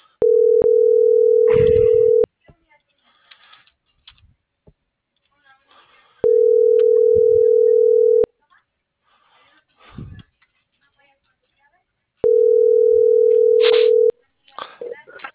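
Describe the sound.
Telephone line tones on a call: three long, steady, mid-pitched tones of about two seconds each, separated by longer gaps filled with faint rustling and indistinct background sounds.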